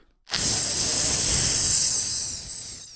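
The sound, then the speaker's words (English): A can of lime soda is cracked open: a sharp pop gives way to a bright, loud fizzing hiss that runs for nearly three seconds and slowly tapers off. “Crack open that can on the air and take a chug. Oh, don't mind if I do. Sound effect.”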